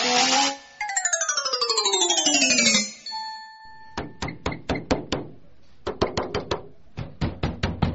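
Repeated hard knocking on a door follows a descending electronic chime: a ringing melodic tone fades out, then several quick bursts of sharp, loud knocks come in separate groups with short pauses between them.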